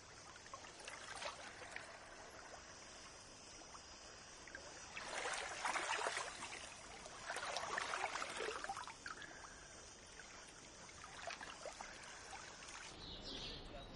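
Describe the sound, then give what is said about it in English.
Water splashed onto a face from a steel livestock water trough: soft sloshing and trickling over a constant faint running-water hiss, with two longer, louder bursts of splashing. “Anne splashes water on her face from a steel livestock water trough.”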